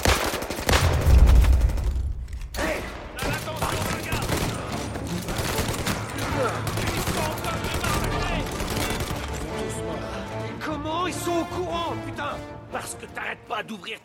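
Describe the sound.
Heavy gunfire erupts in a dense, rapid fusillade, with many loud overlapping shots and a deep boom near the start. Men's voices come through amid the shooting.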